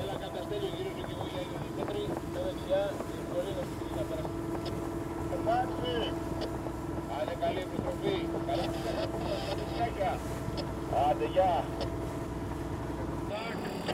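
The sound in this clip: A boat engine drones steadily on the way to an island. The low, continuous rumble holds throughout, with faint voices talking over it.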